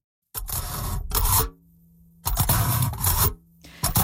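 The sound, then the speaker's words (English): A fork pokes through aluminum foil, producing crisp crackling, rasping bursts, a few of them separated by brief pauses. “So that's the sound of a fork poking through aluminum foil.”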